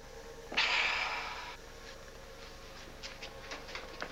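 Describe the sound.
A deep inhalation of fumes from a canister: one breathy, hissing rush lasting about a second that gradually fades, followed by a few faint soft ticks over a quiet background.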